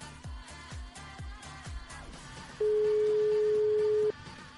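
Telephone ringing tone on an outgoing call, one long steady low-pitched tone lasting about a second and a half, clearly loud over a rhythmic background music bed.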